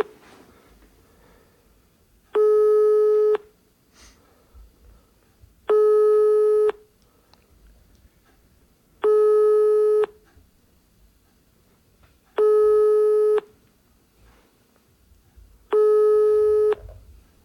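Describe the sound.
Telephone busy tone sounding on speakerphone after a call was hung up: five evenly spaced, steady tone bursts, each about a second long, with quiet gaps and faint background noise between them.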